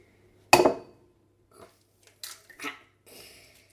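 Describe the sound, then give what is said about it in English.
Eggs cracked into a bowl for a three-egg omelette: one sharp, loud crack of shell, followed by a few softer clicks and taps. “Shall Mummy crack the eggs into the bowl? Are you ready?”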